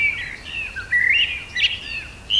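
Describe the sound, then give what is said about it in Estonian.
A blackbird sings in a garden, giving clear, high, whistled phrases that slide and warble in varied notes, with short pauses between them and no other voices. “Kõigepealt tuli lavale mustrastas,”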